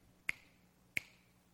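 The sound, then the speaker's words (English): Two crisp finger snaps ring out alone, sharp and clearly separated, with quiet in between. “before the cuckoo goes cuckoo twice, I'm going to snap my fingers three times.”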